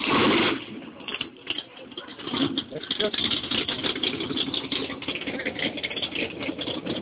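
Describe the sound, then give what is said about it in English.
A red Ford Mustang engine rumbles during a shakedown run at a grudge race, a rough, mid-pitched running sound with a louder burst at the start, heard beneath people talking. “we got another Detroit guy with the red Mustang about to do a shakedown.”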